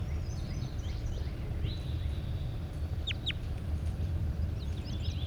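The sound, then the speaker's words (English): A large bird calling, with short high chirps and whistles, including a quick pair of rising notes, standing out faintly above a constant low rumble. “Definitely a large bird.”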